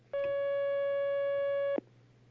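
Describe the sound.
A single steady electronic telephone line tone sounds as an incoming call is taken. It holds one even pitch for about one and a half seconds, then stops abruptly, leaving a faint low hum.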